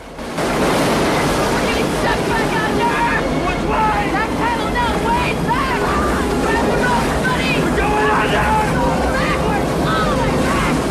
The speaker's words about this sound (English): They're drenched in white water as the boat is thrown around violently.